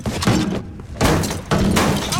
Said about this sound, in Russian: Соня смотрит на дверь, которую разбивает немецкий солдат.